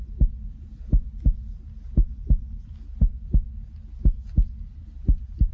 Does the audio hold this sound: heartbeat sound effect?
yes